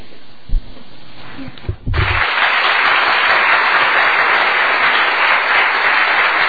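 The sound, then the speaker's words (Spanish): Loud, sustained crowd applause honoring a guest at an event. It breaks out after about two seconds of quieter, mixed sound and continues as a dense, steady wash of clapping to the end. “Un aplauso fortísimo”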